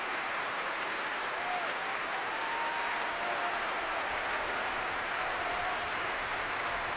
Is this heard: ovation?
yes